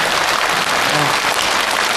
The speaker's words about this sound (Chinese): 您各位受累给我鼓鼓掌好不好？